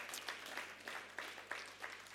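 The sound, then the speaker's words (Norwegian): Faint applause from an audience at a gathering. Sparse, distinct claps arrive in a steady rhythm rather than a dense roar. “Da får Harald få en applaus”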